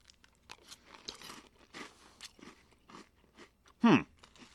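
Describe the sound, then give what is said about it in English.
Crunching of a sugary special-edition summer cereal eaten with a spoon: faint scattered clicks and small crunches, then one loud, sharp crunch near the end. “Okay, got the spoon. It's making a little sound. All right, let's give it a taste.”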